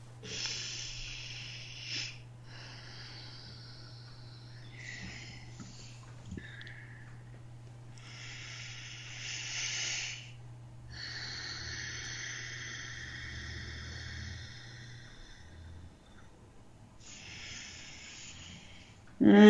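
Slow, deep breathing before a channeling session, with long airy inhales and exhales at a quiet level and a low steady hum running beneath most of it.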